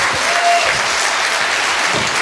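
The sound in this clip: An audience applauds at a live festival event as David Morrissey is welcomed on stage: dense, even clapping that stays at one level throughout, with no voices over it.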